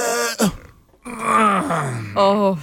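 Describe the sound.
A person imitates the groan they make when getting up: a strained vocal moan, a breathy pause, then a long drawn-out groan sinking in pitch and a brief final grunting note.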